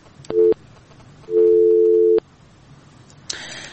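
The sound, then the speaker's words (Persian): Telephone busy signal after a call is cut off: two steady electronic tones, a short beep followed by a longer one, then a brief burst of noise at the end. “خب تماس ها قطع شده میره.”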